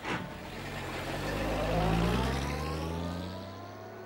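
A car engine hums as the car drives into thick woodland. The low rumble and broad road noise swell toward the middle and then ease off slightly.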